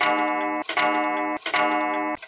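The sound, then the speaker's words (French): A pendulum clock ticks in a steady, regular rhythm, a few sharp ticks sounding over a sustained ringing tone with no voices. “La pendule tintinabule joyeusement et semble rire de mes angoisses.”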